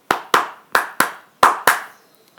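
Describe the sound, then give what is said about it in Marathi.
Six sharp hand claps by a girl, falling in three quick pairs with short pauses between them, each clap crisp and loud with nothing else heard. “रंजूने सहा वेळा टाळ्या वाजवल्या”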